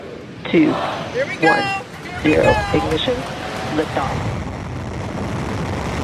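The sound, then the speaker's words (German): A launch countdown over loudspeakers at a windy satellite rocket launch carrying 60 satellites: several short spoken bursts over a steady wind-like hiss. “Doch dann geht plötzlich alles ganz schnell. Über Lautsprecher ist der Countdown zu hören.”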